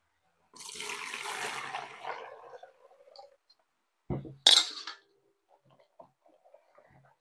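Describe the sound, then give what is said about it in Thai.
Water splashing and pouring as the rinse water is changed while washing soapy laundry: a sustained rush of splashing, then a short, louder pour, followed by faint scattered drips and small sounds. “ล้างให้ฟองออกหมดเลยนะคะเดี๋ยวเราไปเปลี่ยนน้ำก่อนนะคะ”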